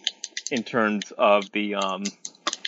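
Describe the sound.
Someone types on a computer keyboard. Quick clicking keystrokes come in bursts under and between a person's talking, most clearly at the start and the end.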